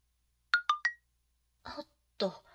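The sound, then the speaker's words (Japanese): Three quick, bright electronic chimes of an incoming message notification on a phone, short and closely spaced, then quiet. “何かな？メッセージが来た。”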